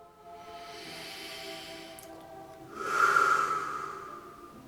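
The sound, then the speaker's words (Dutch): Slow breathing in and out during a relaxation exercise: two long, soft, airy breaths, the second louder and hissier, with a short pause between them. “Ik adem langzaam in en uit.”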